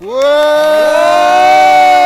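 A live audience at the Devoxx France conference cheers with a loud, sustained vocal shout. Its pitch rises at the start and then holds steady until the end.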